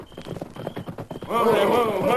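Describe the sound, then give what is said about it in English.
Hooves of a group of horsemen riding up beside a prairie trail by moonlight: a quick, steady clip-clop of several horses, then a loud, drawn-out whinny over the hoofbeats. “Several hours later, as the rising moon cast a pale light over the prairie, Snavely led a group of horsemen back toward the wagon standing beside the trail.”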